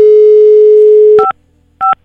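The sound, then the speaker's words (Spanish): A loud, steady telephone dial tone holds for about a second, then gives way to two short two-tone beeps separated by a brief pause, with no voices. “Le estamos marcando.”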